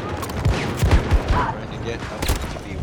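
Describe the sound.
Rapid gunfire in a video game, including a light machine gun, many sharp shots in quick irregular bursts over a low rumbling background.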